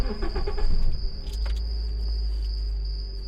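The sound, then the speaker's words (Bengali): A car driving into a garage: a steady, low engine rumble throughout, with a few light clicks and rattles at the start. “সামনেই একটা garage খোলার শব্দ হল। Henry ফিরে এসে গাড়ি নিয়ে ভেতরে ঢুকল।”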